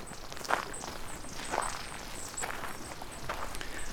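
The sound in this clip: Footsteps walking through a small forest edge and out onto open grassy fields in Midtjylland, near Illerup Ådal: a few steady, soft crunching steps in an even rhythm, with no talk.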